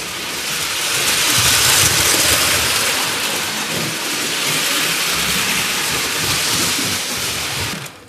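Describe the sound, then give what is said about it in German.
A very large, heavy all-metal toy train layout, too big to set up on a table, runs with a continuous loud rushing rattle and rumble that holds steady for about eight seconds before cutting off at the end. “Also das ist jetzt eine Anlage, die, die ist so riesig, die kann man nicht auf dem Tisch aufbauen. Also das ist richtig Schwermetall. Und jetzt Fahren wir mal.”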